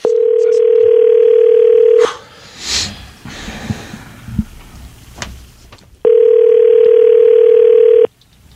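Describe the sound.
Telephone ringing tone of an outgoing call being placed: two long, steady, loud tones of about two seconds each, separated by a pause filled with faint breathing and rustle.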